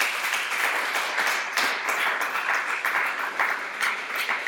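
Congregation applauding in a church service: sustained, many-handed clapping that stays fairly loud throughout, rising and falling in a few gentle swells over several seconds.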